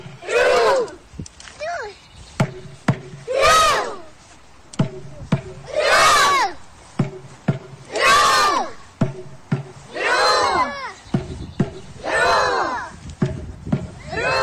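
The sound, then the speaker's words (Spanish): Norwegian schoolchildren shout in unison six times at a steady rhythm during their rowing-style celebration, while their teacher beats a can like a drum, sharp hits falling between the loud, rising cheers. “los niños en Noruega están haciendo su festejo particular, que es el del remo, y la seño golpea un tarro haciendo alusión al tambor, y los niños responden con el remo”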